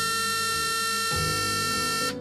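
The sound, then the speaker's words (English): A courthouse buzzer signalling a jury verdict sounds as a steady, harsh electronic buzz rich in overtones that continues for the whole stretch, its tone shifting slightly partway through. “A buzzer burst the silence. And then another.”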